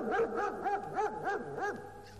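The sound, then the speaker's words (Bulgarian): A big dog barks six times in a quick, steady rhythm. Each bark swoops up and then down in pitch, with a whining, yelping edge. “Ей, че голямо куче трябва да е това.”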